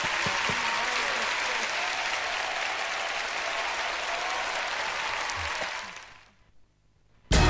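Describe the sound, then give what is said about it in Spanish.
Sustained crowd applause, a loud, dense wash of clapping that holds for about six seconds, then fades to near silence before a brief, loud burst of a different sound at the very end. “Un aplauso.”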